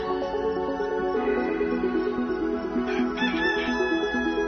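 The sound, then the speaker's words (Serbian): A rooster crows in long harmonic calls, then small birds chirp in short, high bursts over a steady background. “Pevac i ptičice kao pouzdan znak da smo stigli na kraj još jednog jutarnjeg”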